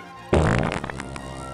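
A single loud, raspy fart bursts out abruptly, sputtering for about half a second before trailing off into a fainter rumble.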